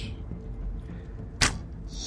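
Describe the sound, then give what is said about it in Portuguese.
A crossbow shot: one sharp, bright snapping whoosh cuts through a low steady rumble, followed by a faint hiss near the end. “Então eu miro minha besta e. Eu miro nesse cara aí e atiro ela.”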